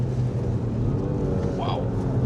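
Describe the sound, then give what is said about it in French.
A three-cylinder car engine drones low and steady throughout, a loud, even rumble without clear rises in pitch. “j'adore le son du 3 cylindres. Ouais, il résonne bien.”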